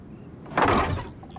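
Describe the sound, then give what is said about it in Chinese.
A courtyard gate is pulled open: a single broad, rushing scrape lasting about half a second, moderately loud over a low, steady background. “这一日，家仆三宝打开院门，却发现门前的赈灾粮都不见了。”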